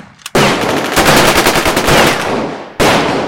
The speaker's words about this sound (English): There he is! Shoot him!